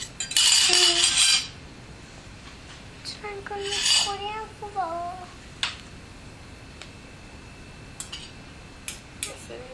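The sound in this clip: A fork cutting food on a plate: clattering scrapes of metal on the plate in a burst at the start and again midway, then a few light, sharp clinks, with short voice sounds in between.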